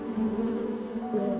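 Bees buzz around a coconut tree that has long stopped bearing fruit, a steady low droning hum that holds evenly throughout the short clip, alone with no voices.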